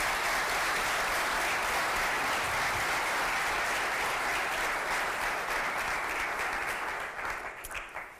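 Warm applause from a conference audience on AI ethics welcoming Margrethe Vestager, dense and steady clapping at full strength throughout that thins out in the final second.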